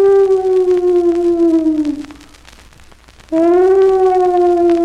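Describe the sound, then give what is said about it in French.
Spooky moaning effect blending ghostly wails, dogs and wind through a window: a long wavering howl with rich harmonics slowly sinks in pitch, fades to a low murmur, then a second loud, steady howl starts abruptly. “Donc, un savoureux mélange de fantômes, de chiens et de vent dans une fenêtre.”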